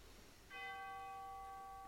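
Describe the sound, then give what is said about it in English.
A memorial bell chime rings out once in remembrance of loved ones, a soft single strike followed by bright, sustained ringing tones that hold steadily to the end. “And a final chime for all loved ones whom we hold close in our hearts and memories this day.”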